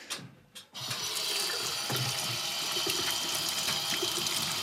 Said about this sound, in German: Und dann wollen wir Hände waschen wahrscheinlich, gell?